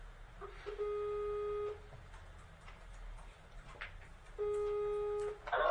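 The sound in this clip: An outgoing Skype call rings. Two sustained electronic ringback tones are separated by a pause of a few seconds, faint over low background hiss.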